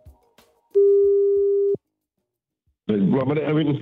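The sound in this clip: Telephone call tone as a number is rung, one steady beep at a fixed mid pitch lasting about a second, followed after a pause by a voice speaking.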